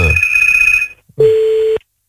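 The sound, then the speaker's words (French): A telephone rings with two electronic tone bursts: a higher buzzing tone for under a second, a short gap, then a lower, pure, steady tone that cuts off cleanly. “Et ça sonne chez Nat.”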